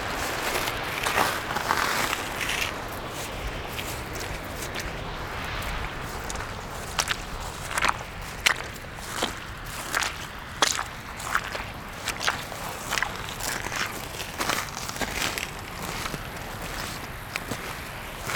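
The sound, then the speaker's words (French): Footsteps crunch across granular, icy ground on a Chilean mountain: many fairly regular, faint steps over a soft, breathy background. “De mes pas qui effleurent l'épiderme de la montagne chilienne.”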